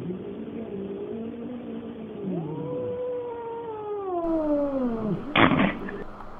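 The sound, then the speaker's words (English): Cats caterwauling at each other inside a house: long, drawn-out yowls that waver up and down in pitch and overlap, ending in a short, harsh burst of noise. “So yeah, we've had some feline domestic tension going on in the house, but they've slowly gotten used to each other.”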